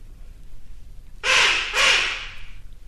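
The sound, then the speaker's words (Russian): Two harsh, rasping magpie calls sound back to back, loud and scratchy against a quiet background. “Птицы. Птицы кричат. Сороки-белобоки шебуршат.”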